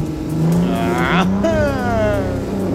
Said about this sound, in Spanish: Así que mire, y escuche el motor en el que estaba montado